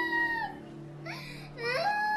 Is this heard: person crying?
yes